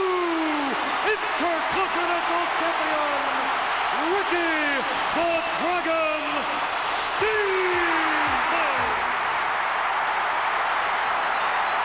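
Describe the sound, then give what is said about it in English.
Wrestling arena crowd cheering wildly at WrestleMania III after a new Intercontinental Champion is crowned, a loud sustained roar of cheers and whoops with an excited voice talking over it. “Crowd going absolutely bananas here.”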